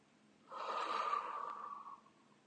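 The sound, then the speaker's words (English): A person breathes once through the nose, a soft airy hiss that swells, holds and then fades. It is quiet and stands alone, with no talk. “Now close your mouth and breathe in through your nose. Hold it. And breathe out again.”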